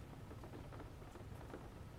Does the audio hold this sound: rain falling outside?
yes